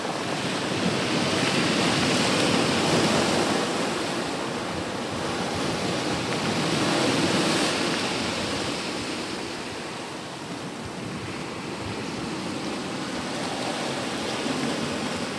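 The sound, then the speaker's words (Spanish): Sea waves breaking over rocks make a continuous, loud, hissing roar of surf that swells and eases in slow surges, with no voices. “Salen las olas por las piedras y tal.”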